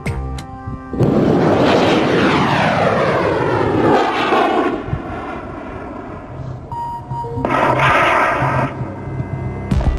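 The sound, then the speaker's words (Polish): A homemade manned rocket, built by a 61-year-old former stuntman, launches over the desert with a sudden loud rushing roar. Whining tones fall in pitch, the roar eases, then swells again briefly near the end. “Rakieta wznosi się na wysokość ponad 570 metrów i po chwili w miarę bezpiecznie ląduje na pustyni.”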